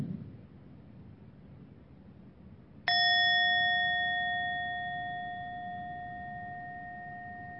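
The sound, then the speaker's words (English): A meditation bell is struck once during a mindfulness session. After a few seconds of faint hiss, the bright metallic strike rings out with several clear overtones and slowly fades over about five seconds. “Please close your eyes gently in the sound of the bell.”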